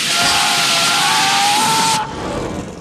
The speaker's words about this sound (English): Zhang sprays Frank with a jet of hot steam.